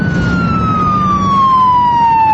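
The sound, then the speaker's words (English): A police squad car's siren on a highway as the car approaches fast: a loud, sustained wail whose pitch glides steadily downward while the volume grows slightly, over a low rumble of road noise. “As they continue down the highway, a squad car approaches fast behind them with its lights flashing.”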